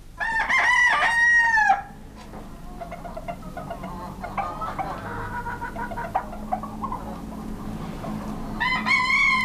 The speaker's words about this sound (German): Schon die Hähne.